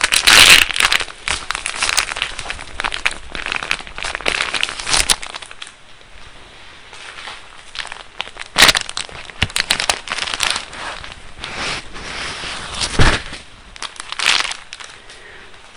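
A paper napkin is pulled out and unfolded for crafting a napkin rose. Many soft crinkles and rustles of the thin paper come in irregular bursts, some sharper and louder, with no talking.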